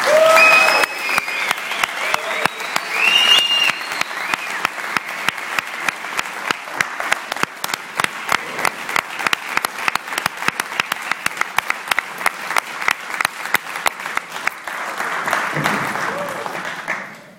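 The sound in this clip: Applause welcoming a speaker at an addiction recovery meeting, opening with a burst of clapping and a brief whistle, then settling into long, steady rhythmic unison clapping before a final fuller swell and fade.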